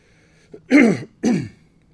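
Throat clearing from someone with a sore, troubled throat: two harsh, rasping bursts in quick succession, each about half a second long, with quiet before and after.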